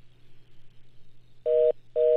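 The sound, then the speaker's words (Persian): A telephone line tone sounds after a call drops: a faint low hum, then two loud, steady, mid-pitched beeps separated by a short gap. The second beep is cut off at the end. “متاسفانه ما ایشان از خط تلفن از دست دادیم، بازم کوشش میکنیم ایشان در خط تلفن بیه.”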